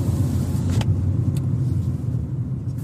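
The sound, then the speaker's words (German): Steady low engine and road rumble from a car on a road trip around the Cape Peninsula, heading toward a coastal mountain drive. The drone stays loud and even throughout, with no voices. “Kap-Halbinsel und fahren jetzt erstmal zum Chapman's Peak Drive.”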